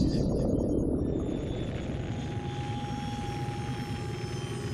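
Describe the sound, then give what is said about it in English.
A science-fiction spaceship settles onto uneven alien ground, its engines a loud, constant low roar topped by a thin, steady high whine. “with the barest of bumps, Hans set the Millennium Falcon down on the uneven ground.”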